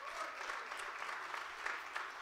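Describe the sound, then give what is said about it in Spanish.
A church audience claps in praise of Jesus during a service, a brief burst of dense, steady applause that stays fairly faint. “Denle ese aplauso a Jesús hoy.”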